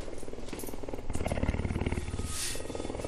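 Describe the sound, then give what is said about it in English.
A three-year-old cougar purrs while eating hand-packed food of ground-up whole animals with bones and fur. The purr is a steady, rapidly pulsing low rumble that continues throughout, with rougher noisy textures mixed in. “That is the sound of one very happy cougar eating a concoction that was hand-packed by Patricia Billette.”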